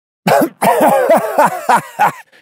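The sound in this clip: A man splutters and coughs after gulping spirit straight from the wide neck of a canister: a quick run of harsh, voiced, breathy bursts in an uneven rhythm, loud and alone, with no words.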